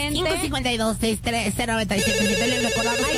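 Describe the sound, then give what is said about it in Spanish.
Telephone ringtone signalling an incoming call, a loud electronic pattern of repeated melodic tones that settles into a sustained ringing tone. “Y también tenemos una llamada, hola.”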